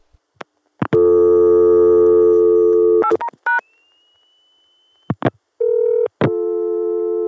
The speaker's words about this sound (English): 227 is a ring down on the Connecticut machine, and I'll demonstrate now how it goes through from Atlanta